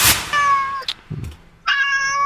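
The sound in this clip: An adopted cat gives two clear, drawn-out meows, loud and high-pitched, separated by a short pause with faint rustling in between.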